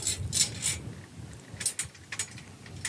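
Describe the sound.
A tension rod being unscrewed from a snare drum lug gives bursts of fine metallic clicking and ratcheting in a few short clusters, alone with no voices.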